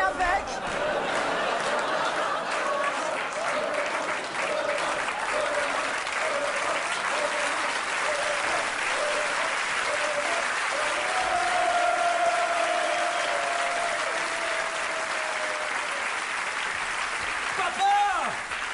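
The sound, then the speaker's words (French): A crowd gives an assembly ovation in a 1978 stage comedy, a thick, steady clatter of clapping that holds for the whole clip while voices and chatter carry on underneath. “L'Assemblée veut vous faire une ovation.”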